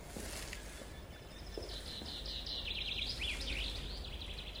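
Birds singing outdoors on hills near Kyiv, rapid high chirps and trills over a steady broad hiss.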